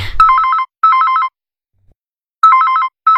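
A telephone rings with a loud, electronic warbling ringtone in pairs of short trilling bursts, a longer silence, then another pair beginning; no talk is heard.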